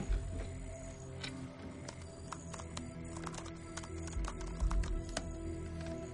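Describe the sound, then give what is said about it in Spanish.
One key on a laptop keyboard is pressed over and over, making sharp, light clicks at an uneven pace over a low steady hum. “Mira pensativo los listados que se muestran en la pantalla. Pulsa repetidamente una misma tecla.”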